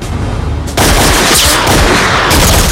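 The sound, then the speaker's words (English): Gunfire erupts in a film scene as a soldier takes aim from a walkway above. After a quieter start, loud rapid shots and booming bursts cut in abruptly and continue to the end. “She turns around a corner, and a soldier takes aim from a walkway above.”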